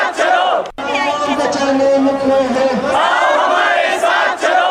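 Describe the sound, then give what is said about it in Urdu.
Crowd of marchers chanting slogans at a climate change protest march in Quetta, Balochistan. Loud, massed voices ring out in unison, drop briefly near the start, then resume and carry on without pause. “March کے شرکا نے شہر کے مختلف علاقوں کا گشت کیا اور اپنے مطالبات کے حق میں نعرے بازی کی۔”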